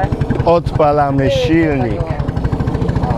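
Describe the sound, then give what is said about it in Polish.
A boat engine runs with a steady, low, throbbing pulse while a voice talks over it, as the boat sets off for the shore after a stretch of rowing. “odpalamy silnik i ruszamy w drogę do brzegu”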